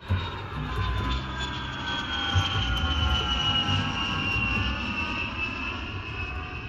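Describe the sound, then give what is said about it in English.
An airplane comes in to land, its engines making a steady, loud, broad roar with a high whining tone riding on top. The sound continues without a break and no voices are heard. “Please fasten your seatbelts at this time. We will be landing shortly.”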